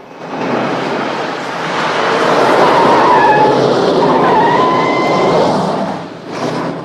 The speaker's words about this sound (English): A black car follows the ambulance.